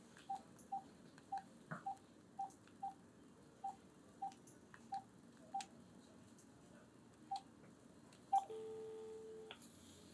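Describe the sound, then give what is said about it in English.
Telephone keypad dialing tones: a long, evenly spaced run of short, clear beeps, then a louder click and a longer steady tone at the end. “What just happened? Let me dial that again.”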